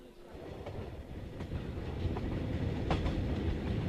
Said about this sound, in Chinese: 旅客们，杭州车站到了，请在杭州下车的旅客抓紧时间下车。